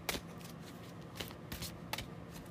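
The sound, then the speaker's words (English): Faint shuffling of a deck of oracle cards, a few quick, soft papery riffles separated by short pauses, with a quiet hush between bursts. “feels like maybe two more goddesses want to come through, so I'm going to keep shuffling”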